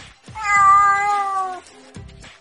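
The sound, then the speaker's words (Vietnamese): A kitten meows pitifully while being carried off, giving one long, drawn-out, high whining cry that holds steady before breaking off, followed by a few faint low sounds. “Mèo con bị xách đi, cảm thấy khó chịu nên kêu mèo mèo đáng thương.”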